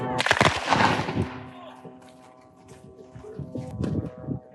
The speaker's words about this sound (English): The interviewee had been shot and fatally wounded.